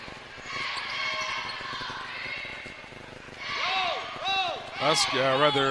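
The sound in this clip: A basketball is dribbled on the court at the top of the key during a women's game, a run of rhythmic bounces under a commentator's steady play-by-play talk.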